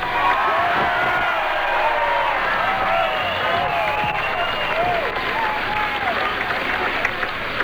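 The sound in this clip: A crowd at a political rally in Kansas City applauds and cheers a speaker's welcome. Loud, sustained clapping runs throughout, with shouts and whoops rising above it.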